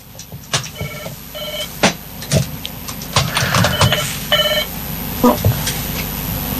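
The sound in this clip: Telephone ringing with an incoming call, two short patterned bursts of bright stacked tones over a busy background of clicks and noise.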